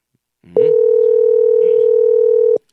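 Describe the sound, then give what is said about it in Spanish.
A telephone ringback tone sounds while a call to a company manager is placed: one long, steady, mid-pitched tone lasting about two seconds, loud and alone. “vamos al contacto telefónico ya con el gerente Jaime Luis Almerco. Le estamos llamando.”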